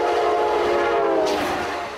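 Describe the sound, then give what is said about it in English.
A passenger train pulled by a noisy locomotive gives a loud, steady rumble with a sustained harmonic horn-like tone layered over it, easing slightly toward the end. “The first sound you heard was a typical passenger railroad propelled by a noisy locomotive.”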